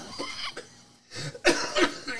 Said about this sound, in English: Terrible cough, doctor. Terrible cough.